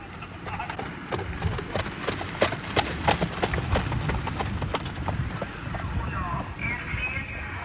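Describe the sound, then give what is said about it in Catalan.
Hoofbeats of trotting horses at a harness race make a rapid, continuous clip-clop of many sharp strikes, with voices running underneath. “Ara anem a veure si trobam la carrera de trotons. Que els sentiu”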